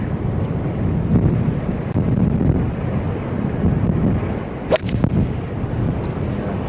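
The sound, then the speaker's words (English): Strong wind blowing across a golf course during a tournament round, a loud, steady roaring rumble that swells in gusts, broken once by a brief sharp click. “Esther Henselaar, the strongest we felt the wind today”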